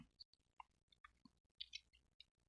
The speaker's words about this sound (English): And when I click on the Strong's number for this one,